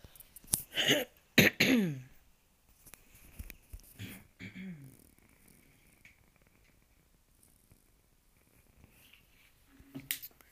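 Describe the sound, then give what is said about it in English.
Throat clearing into a microphone: a few rough, noisy bursts come early, followed by quieter scattered sounds and one more short burst near the end. “sorry, I'm trying not to like clear my throat into the microphone.”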